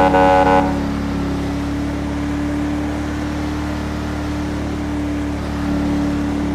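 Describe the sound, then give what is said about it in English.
A police cruiser's horn in a police-roleplay driving game gives a brief, plain civilian-style honk of about half a second, followed by a steady low engine hum. “the horn sounds more like a civilian horn. Wow, impressive.”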